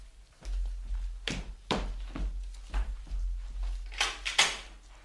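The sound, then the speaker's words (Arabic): Knocking on a door, several irregular hard raps with uneven gaps between them, ending in a pair of louder knocks close together, all over a steady low hum. “من يدق الباب؟”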